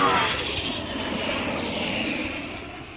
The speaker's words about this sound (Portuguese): asas batendo, marcha de decolagem, turbinas e já!